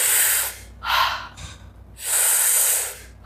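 A person doing a panting breathing exercise makes a few sharp, hissing breaths through the mouth, then one longer, forceful exhale, with no talking.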